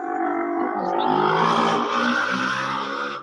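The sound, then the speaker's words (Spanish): A motorcycle passing by gives a loud, steady engine roar with dense harmonics. It holds for about three seconds and drops away at the very end. “¡Pasó la moto! ¿Qué fue eso?”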